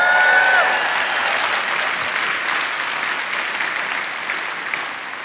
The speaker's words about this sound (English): And I didn't let you applaud because I want you to applaud after this.